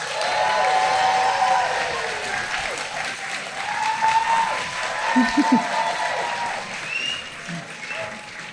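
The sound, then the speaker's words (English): Audience applauding and cheering to welcome a guest at a live on-stage event, sustained clapping with whistles and whoops that stays strong for several seconds and then eases slightly. “So please put your hands together and give a warm Happiness Lab Live welcome to Jason Mitchell.”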